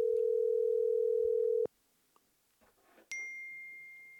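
A telephone dial tone plays while a dropped call is redialed. A loud, steady low tone holds for about a second and a half and then cuts off. After a short near-silent gap with faint stray noises, a higher, thinner tone starts sharply and holds.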